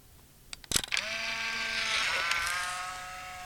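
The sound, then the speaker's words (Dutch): A Polaroid instant camera takes a photo: a sharp shutter click is followed by a steady mechanical whir lasting about two seconds as the print slides out of the top. “Ik heb op het knopje gedrukt. En de Polaroid-foto komt er van bovenuit.”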